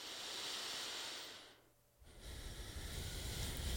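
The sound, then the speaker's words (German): Deep, slow breathing during a guided yoga practice: two long, airy breaths separated by a short quiet pause, soft and breathy with no talking. “Dann nimm ein, zwei tiefere Atemzüge.”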